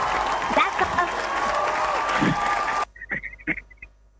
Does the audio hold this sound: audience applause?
yes